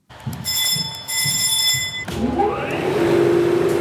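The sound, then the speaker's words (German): Old machinery clatters to life in a family-run works in Upper Bavaria, with gears meshing and rollers starting to turn. Steady tonal pulses give way midway to a whirring whine that climbs in pitch as the rollers spin up. “Es rumpelt, es klackert, Zahnräder greifen ineinander. Langsam setzt sich Walze für Walze in Bewegung.”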